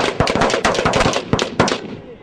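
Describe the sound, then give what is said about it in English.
Rifle shots ring out on a shooting range during early recruit training: a rapid, dense run of many sharp, loud cracks that overlap with barely a pause between them. “fired three rounds. Three rounds. How many holes do you see?”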